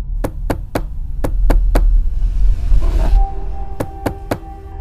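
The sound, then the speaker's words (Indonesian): Knocking on a door: three sets of three sharp, evenly spaced raps, with a longer pause before the final set, over a low rumble. No one speaks. “ada lagi yang mengetuk pintu”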